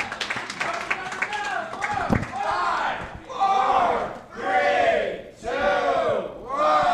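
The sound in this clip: An audience applauds and cheers for a comedy contestant: clapping at first, then loud, repeated swelling whoops and shouts from the crowd.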